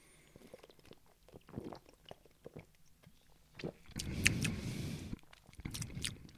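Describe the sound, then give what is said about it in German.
Sips of an orange-flavoured caffeinated soft drink with small bits in it: faint wet mouth clicks and smacks, with a louder, gulping burst of liquid partway through. “wie schmeckt denn nun diese Mio Mio Orange plus Koffein. Ich nehme nochmal einen Schluck.”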